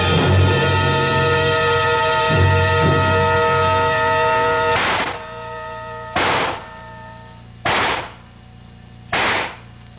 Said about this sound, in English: Thought I'd find you down here in the range. Good cluster, except for that one shot off to the left. Probably a faulty cartridge.